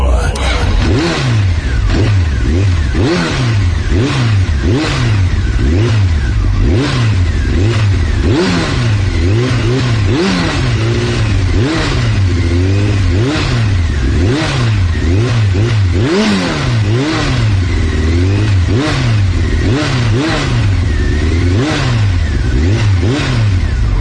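A car engine revs and accelerates over and over, its loud, continuous roar rising and falling in pitch many times in a steady cycle throughout.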